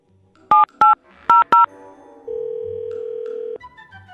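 Telephone keypad tones as a number is dialed to call a car dealership: four short, loud two-note beeps in quick succession, followed by a long steady tone.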